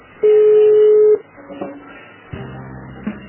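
Telephone line tones while a call is transferred to a customer service agent: one long, steady beep lasting about a second, followed by fainter low hums and a brief blip.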